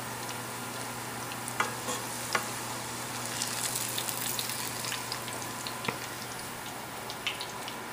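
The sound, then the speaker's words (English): Sweet Vidalia onions frying in a pan give a steady, even sizzle with scattered small pops and crackles throughout, and no voices. “So look at the onions here. They're fried really, really nice.”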